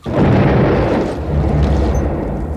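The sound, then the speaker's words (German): An explosion on a brig hits as a sharp, dull bang that quickly becomes a loud, deep, rolling roar. The roar holds steady for more than two seconds with no voices over it. “Der scharfe, dumpfe Knall der Explosion hinter uns schreckte uns alle auf.”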